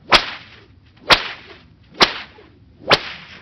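Four sharp whip cracks land about a second apart as a whip lashes a dog lying on the ground. Each crack is a loud, brief snap with a short fading tail, and there are no voices.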